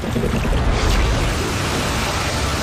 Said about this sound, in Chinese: 那是冷水间歇泉，我们叫它老信赖。